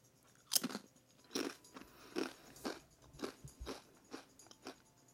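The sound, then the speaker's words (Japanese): Someone crunches on Dontacos tortilla chips, a quiet but crisp series of many bites and chews spaced in an uneven, steady rhythm with no talk. “あとドンタコス食べてる”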